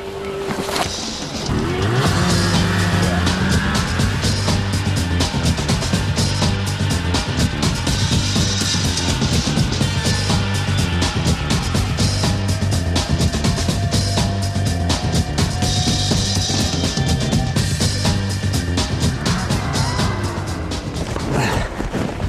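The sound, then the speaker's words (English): Snowmobiles driving on snow and ice make a loud, unbroken engine roar that fills the whole stretch. Revving pitch wavers and shifts as they speed up and slow down, and no talk is heard. “It's a wonderland of snow and ice, and it's the perfect setting for testing out our scrappy snowmobiles.”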